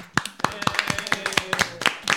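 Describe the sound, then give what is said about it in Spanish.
Applause from an amphitheater audience of about forty people celebrating a winner. Many sharp, separate claps at an uneven rhythm rise clearly above the room, with voices heard alongside the clapping. “Aplaudimos todos.”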